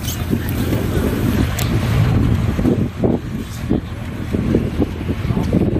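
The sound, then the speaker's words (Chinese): Firefighters' inflatable rubber boat crossing floodwater on a submerged village road toward houses: a steady, full rumbling wash of boat and water noise, with brief louder surges throughout. “消防员驾驶橡皮艇穿过积水路段，靠近民房。”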